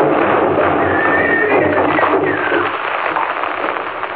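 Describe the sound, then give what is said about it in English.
Horses gallop and neigh while pulling a wagon through snow. Shrill whinnies rise over a continuous rumble of hooves, and the sound stays loud and dense throughout. “Now the horsemen are not more than a mile behind. Now the wagon is quite close. We can see the gray box swaying gravely. Now they are almost upon us.”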